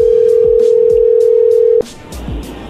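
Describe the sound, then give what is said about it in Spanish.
A steady single-pitch telephone tone sounds during a phone call being redialed, holding loud and even for almost two seconds before cutting off abruptly into low background noise. “le vamos a marcar de nuevo y tú le contestas, ¿ok?”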